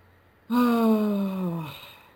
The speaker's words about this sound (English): Oh, I had to take a breath, though.